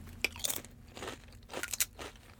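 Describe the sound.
Crisp crunching of sour cream and cheddar potato chips, several sharp bites and chews spread unevenly across a couple of seconds, fairly quiet and with no talking.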